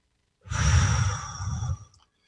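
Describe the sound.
A single long breath blown out through the mouth during a guided relaxation exercise, a steady, fairly loud exhale lasting about a second and a half before trailing off.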